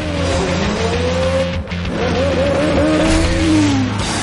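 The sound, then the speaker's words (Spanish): A car reversing hard into a black car and then speeding away: a loud, continuous revving engine with several wavering tire squeals layered on top. “da marcha atrás. Se estrella contra el coche negro y se aleja.”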